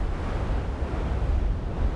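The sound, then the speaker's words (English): Stormy ocean surf and wind around an active volcanic island in the Southern Ocean make a steady, dense roar, heavy in low rumble, with no distinct breaking waves or voices. “It lies in the great Southern Ocean. It's not only surrounded by the stormiest of seas, it is itself an active volcano.”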